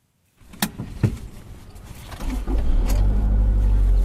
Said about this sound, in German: Zusammen mit Eric Nsabimana fahre ich in die Hügel von Bisesero. Wir fahren vorbei an terrassenförmig angelegten Feldern und Bananenplantagen,